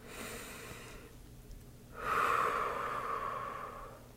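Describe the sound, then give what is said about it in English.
A deep breath drawn and let out alone without talk: a softer breathy rush, a short quiet pause, then a louder, longer airy breath with a slight nasal whistle that slowly fades. “Let's take another nice deep breath, please.”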